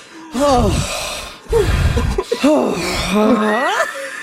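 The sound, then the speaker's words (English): A voice imitates panting after overeating, producing a few loud, breathy voiced gasps whose pitch glides up and down in quick succession. “He starts to pant. And he goes,”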